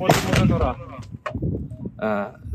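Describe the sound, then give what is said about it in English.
Soldiers on a Ukrainian front line fire several rounds from a weapon hidden in a dug-out hole. A few loud, sharp blasts come in quick succession, mixed with a voice. “On Alexander's command, his men fire several rounds.”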